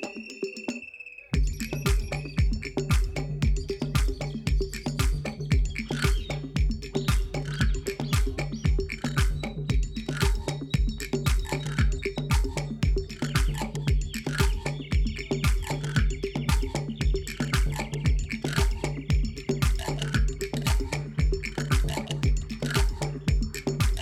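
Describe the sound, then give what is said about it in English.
A frog-shaped percussion instrument is played in a steady rhythm, producing rasping, croak-like clicks. Many evenly spaced strokes repeat throughout, after a brief tone at the very start. “can be a percussion instrument. Just watch what I'm doing with this frog and create some crazy frog rhythm.”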